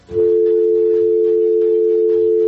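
A telephone tone after a call to a phone-in show is disconnected: one steady, unbroken tone that starts abruptly and holds loud to the end.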